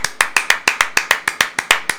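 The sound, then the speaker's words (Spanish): Rapid, steady hand clapping in an even rhythm: sharp, crisp claps of equal loudness, heard alone without voices, as one person applauds during a Sunday afternoon call-in for church offerings. “Queremos darle un aplauso al hermano, a la hermana que nos llame.”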